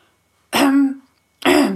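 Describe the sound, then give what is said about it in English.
A man clears his throat loudly before speaking, in two harsh, rasping bursts separated by a short pause. “who cleared his throat and spoke loudly”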